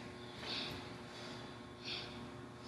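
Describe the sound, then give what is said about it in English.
Deep inhalations during a kundalini-style breathing exercise: a couple of brief, airy intakes of breath, separated by about a second and a half of softer breathing, faint over a quiet background. “Inhale deeply.”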